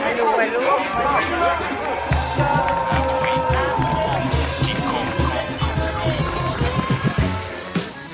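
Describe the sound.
Crowd hubbub at the Fête de l'Humanité festival, a dense, continuous babble of many people talking at once, steady in loudness throughout with no clear pauses.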